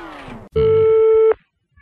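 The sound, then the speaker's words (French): A telephone line tone from a radio station calling a listener live on air: a brief falling tone gives way to one loud, steady, buzzing electronic ring lasting under a second, then near silence. “Bonjour, vous êtes en direct à la radio, vous allez bien ? Bonjour. C'est la radio d'Avignon qui vous appelle.”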